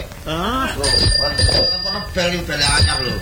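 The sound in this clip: A new bicycle bell rings with bright, sustained metallic tones in two separate rings, over people talking.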